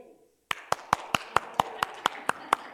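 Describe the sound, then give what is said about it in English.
People in a room clap together in unison, a steady run of crisp, evenly spaced claps that begins after a brief quiet moment and keeps a regular beat to the end. “For those listening online that are curious why we're clapping”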